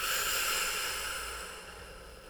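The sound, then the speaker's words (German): A person breathes out deeply during a guided relaxation breathing exercise: one long, soft, airy exhale that holds steady and then slowly fades, with no talking. “Und nochmal einatmen. Und nochmal ausatmen.”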